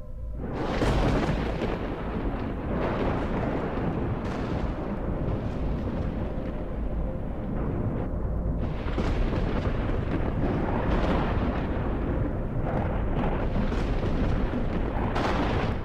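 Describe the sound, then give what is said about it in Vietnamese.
Thunder sound effect: loud, continuous rolling rumble that swells into several heavier crashes, with no voices. “một tia chớp sáng lòa chiếu lên khuôn mặt nhợt nhạt của mỗi người, kèm theo đó là tiếng sấm đinh tai nhức óc vang lên.”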